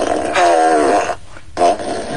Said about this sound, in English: The one thing about the fart machine is it's slightly hard to control.